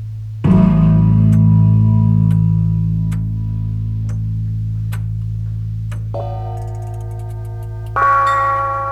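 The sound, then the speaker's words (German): A copper bell rings with a deep, sustained humming tone that swells in loudly and lingers. Fresh strikes later add brighter, higher overtones, and faint ticking clicks run throughout. “Glocke. Kupfer. Glocke tönte.”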